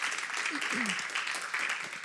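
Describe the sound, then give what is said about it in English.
Brief thank-you applause from a church audience, a short burst of mixed clapping with a voice speaking over it. “Let's give them a thank you clap.”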